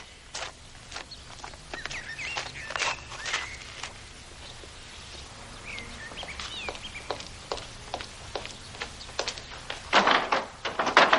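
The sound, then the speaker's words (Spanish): Footsteps walk through a garden up to a door, steady and fairly soft, with birds chirping now and then and a denser burst of noise near the end. “Se coloca bien la chaqueta y avanza hasta llegar a una puerta.”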